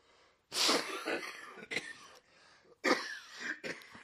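A person who has not taken an allergy pill coughs after inhaling spit, in fairly quiet, harsh bursts. Two main coughing fits are separated by wheezy, throaty breaths and a few shorter hacks.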